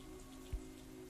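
Rain falls steadily at night in a small alley outside a house: a faint, even patter that runs the whole time, broken by one soft low thud midway.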